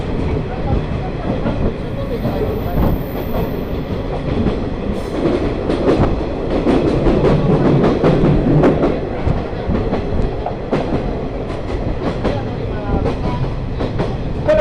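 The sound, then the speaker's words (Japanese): A sightseeing trolley train runs on rails along a line in Tokushima, Japan, with a steady, loud rumble of wheels and running gear, broken by many rhythmic clacks and sharp knocks. “トロッコ今三好市を出ましてですね徳島市まで7つの市と町を通過してまいります”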